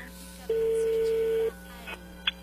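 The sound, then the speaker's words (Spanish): A telephone call being dialed again sounds as one steady mid-pitched tone lasting about a second, followed by a couple of faint, brief clicks. “A ver, márcala de nuevo.”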